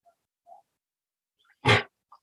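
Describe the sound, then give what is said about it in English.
A pet dog, a female, gives a single short, loud bark that stands alone between a few faint, scattered small noises. “Sorry, that's my dog. She's okay.”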